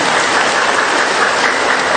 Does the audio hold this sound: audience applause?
yes